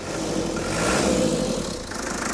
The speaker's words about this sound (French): je suis sûr qu'il démarrera du premier coup. Il y a quelques boutons en plus, un coup de démarreur.